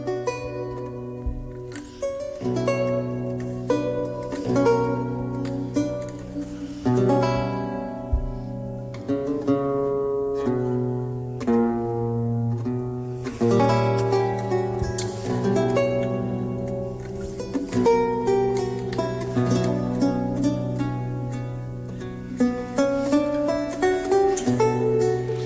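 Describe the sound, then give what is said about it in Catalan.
A lute is plucked, ringing out a flowing line of many bright, distinct notes with chords and sustained bass tones beneath, played alone with no voices for about twenty-five seconds. “i després hi ha un altre instrument que es desenvolupa una mica més, que és el llaüt, el llaüt i la família d'instruments del llaüt, que sona així.”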